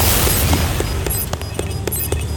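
A mass of explosions from a bomber container in a video game: dense, continuous rumbling booms threaded with many sharp pops and bursts at a steady, loud level.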